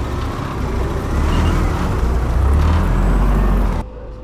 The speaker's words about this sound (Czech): Armádní vozidlo projíždí kolem položeného neznámého materiálu a doslova vystřeluje do země značky, které upozorňují na nebezpečí.